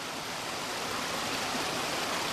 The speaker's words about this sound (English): Red Butte Creek is flowing, but not gushing the way it would normally be in mid-spring.